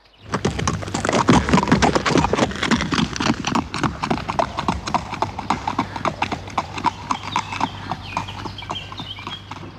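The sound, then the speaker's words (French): Horse hooves clip-clop as a horse returns from market in a children's story. Many loud, evenly spaced hoofbeats keep a steady walking rhythm that runs the whole way through and eases slightly in loudness toward the end. “Et quand le cheval revient du marché,”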